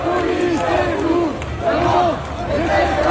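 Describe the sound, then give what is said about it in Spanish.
Protest crowd in Lyon, France, demonstrating against a lack of investment in education. Many voices shout and chant together in loud rising-and-falling waves, with the crowd's din surging several times. “este es el sonido de Lyon, donde ha habido protestas, no solo en Lyon, en realidad en todo el país, contra la falta de inversión en educación.”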